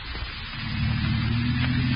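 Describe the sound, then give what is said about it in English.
A second-hand car drives on a lonely country road with a steady, low engine drone and faint hiss that swells slightly after the first second. “You and your wife had left Crane City and were driving over a lonely country road in a second-hand car you had bought with the last of your money.”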